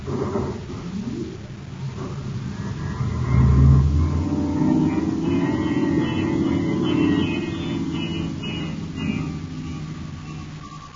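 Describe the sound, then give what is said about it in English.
A spaceship's star drive engaging: a low, droning rumble with layered hum that swells loudly after a few seconds, holds steady, then slowly eases off. “I'm cutting into star drive.”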